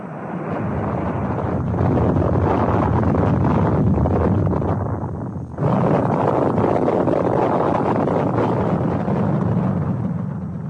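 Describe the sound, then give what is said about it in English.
Rocket launch at lift-off: a loud, dense roar with deep rumble and broad hiss that holds steady for about ten seconds, dipping briefly near the middle before surging back. “Lift off.”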